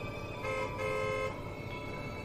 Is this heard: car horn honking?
yes

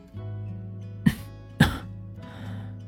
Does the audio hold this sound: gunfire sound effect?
no

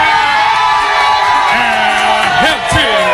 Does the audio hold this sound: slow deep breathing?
no

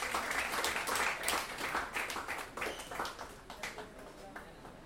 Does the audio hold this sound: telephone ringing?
no

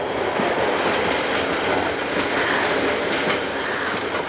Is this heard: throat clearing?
no

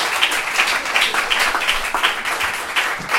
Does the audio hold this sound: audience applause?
yes

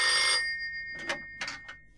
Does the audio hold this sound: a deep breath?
no

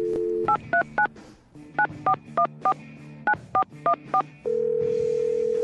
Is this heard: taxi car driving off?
no

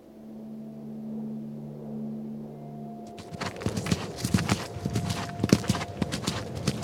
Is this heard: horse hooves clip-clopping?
yes

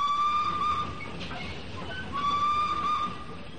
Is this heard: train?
yes

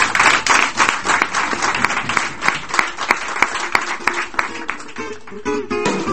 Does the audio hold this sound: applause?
yes

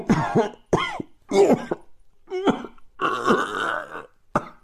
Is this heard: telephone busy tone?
no

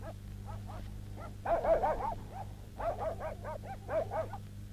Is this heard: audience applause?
no

